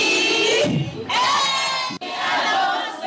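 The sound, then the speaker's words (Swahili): Women ululating in celebration after receiving land title deeds, shrill, high trilling cries from many voices at once, loud and broken by two brief pauses. “Ni furaha, vigelegele na nyuso zenye matumaini.”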